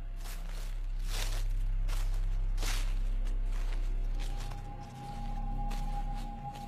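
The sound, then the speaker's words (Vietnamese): Rustling footsteps on leaves in a garden at night: a few soft, crunching steps with brushing leaf noise, heard alone over a low steady hum. “Đâu đó có tiếng loẹt xả loẹt xoẹt, tựa như có người đang dẫm trên lá cây đi lại ở trong vườn.”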